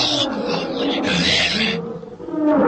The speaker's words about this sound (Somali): waxa ay arkeen libaax markaas awranaya oo leh